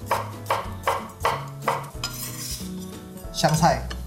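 A knife slices a halved small cucumber in five evenly spaced, crisp chops, followed by softer, irregular clinks and clatter of kitchen utensils.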